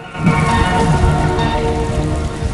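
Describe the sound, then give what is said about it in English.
Heavy rain hammers down on a car, making a dense, loud, unbroken roar of drumming drops with no letup and no voices. “rain hammers down on her car”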